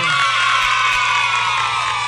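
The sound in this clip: A crowd cheering with shouts and whoops, a loud, unbroken wash of excited voices that stays level from start to finish.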